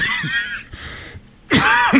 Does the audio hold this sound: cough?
yes